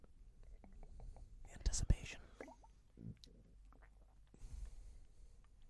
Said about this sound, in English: I heard that go down your throat.